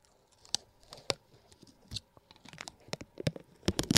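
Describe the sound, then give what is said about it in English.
Protective plastic film is peeled off a button, giving irregular crisp crackles and sharp ticks that grow denser and louder toward the end, with no talking. “Andrew forgot to take the plastic off this button. Like the film. Get ready for the sound.”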